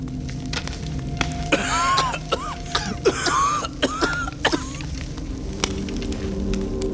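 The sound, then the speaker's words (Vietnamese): Harsh, repeated coughing and throat clearing from someone choking on smoke from a burning straw pile. Many short, rough coughs come in an uneven fit over steady background noise. “Hai Công bị khói làm cho ho sặc sụa, lùi lùi về phía sau.”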